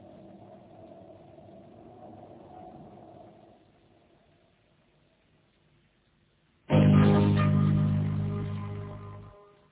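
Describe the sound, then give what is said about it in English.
A scout car approaching: a low engine rumble fades away, then an abrupt, loud mechanical roar swells for about three seconds before cutting off sharply. “A scout car from the ship. And it's coming this way.”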